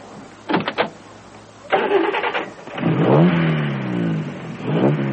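A racing car engine starting and revving: a few short cranking bursts, a rough catch, then loud throaty surges of revs that rise and fall, with no voices.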